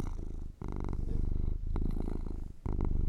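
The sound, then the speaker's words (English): A cat purrs loudly while sitting in a lap, a steady rumbling purr broken only by brief pauses for breath. “The cat's sitting in my lap. I don't know if you can hear this or not, but I can hear the bell, but he is purring so loud.”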